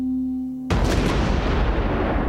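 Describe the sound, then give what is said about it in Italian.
Cannon fire from the Falklands War: a single loud boom abruptly cuts off a steady low hum, then leaves a long, dense rumbling roar. “Dopo l'invasione delle truppe argentine, la Thatcher si riprende le Falkland a colpi di cannone.”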